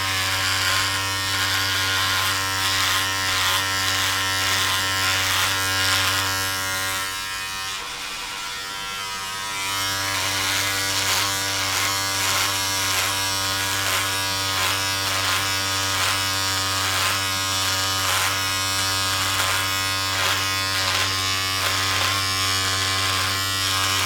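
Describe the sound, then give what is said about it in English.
Electric razor shaving a beard, a steady, loud mechanical buzz that runs almost unbroken for the whole stretch, dipping only briefly near the middle before resuming at full strength. “Yeah, and I'll sweep up after. You have to. That's a problem with beards. I know, especially shaving them.”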